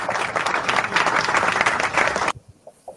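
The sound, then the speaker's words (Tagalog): Audience applause at a Boy Scouts event: dense, steady clapping for a little over two seconds that stops abruptly, leaving a few faint sounds. “Palakpakan natin yan.”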